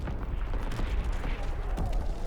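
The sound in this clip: Artillery fire in a video game battle: heavy, booming low rumbles overlap with rapid crackling bursts of gunfire, dense and continuous throughout.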